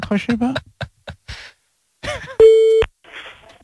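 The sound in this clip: A single steady telephone line tone sounds briefly as a call is placed back, set between bursts of talk.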